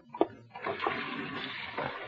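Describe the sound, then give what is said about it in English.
Water runs while someone washes their hands, a brief rush that starts with a small knock and then settles into a steady, moderate splashing flow. “Wait till I wash my hands.”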